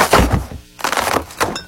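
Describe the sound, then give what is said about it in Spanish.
A cardboard gift box is crushed and torn open, giving a few loud crunching, ripping bursts separated by short pauses. “dice Javi que para él que es una caja de regalo como aplastándose, como que abriéndose ya así.”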